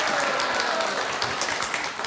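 Applause from an audience welcoming a singer, a dense, even patter of many clapping hands at moderate volume that thins slightly toward the end.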